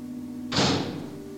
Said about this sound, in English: Okay, this door's been unlocked now. One where it was electronically sealed.